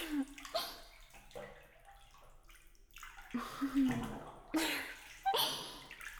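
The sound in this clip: Bathwater slopping and spilling over the rim of a tub with two people in it, faint irregular splashes and gurgles in several bursts.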